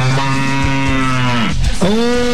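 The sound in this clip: A cow moos in a sound effect: a long, low, drawn-out moo rich in harmonics, then a second moo that bends upward in pitch near the end, loud and alone.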